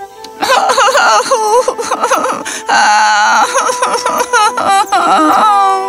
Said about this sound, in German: Die arme Bridget hatte sich das Knie verletzt und konnte nicht aufstehen. Sie war verletzt und hilflos und fing an zu weinen.